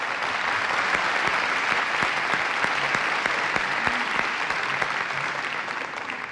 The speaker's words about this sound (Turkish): Ayrıca türkümüze tarla yaptığı açışıyla Mirza Başaray'ı da alkışlayalım mı?